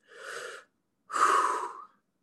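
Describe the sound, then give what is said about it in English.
A big breath drawn in while leaning forward, hunched over with poor posture, for a band posture demonstration: two breathy, airy sounds, a short one and then a longer, louder one with a slightly wheezy edge, with no talking. “lean over, lean forward, take a big breath in.”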